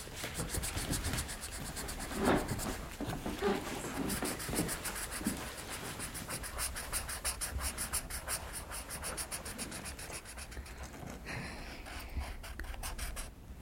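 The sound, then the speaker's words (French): Drawing a flower and a sun by hand produces continuous dry scratching and rubbing strokes across a surface. The strokes run in a busy, irregular rhythm, moderately loud throughout, with no talk. “Qu'est-ce que tu dessines ? En fait, je dessine une fleur et un soleil, et puis après, la fleur, elle s'agrandit.”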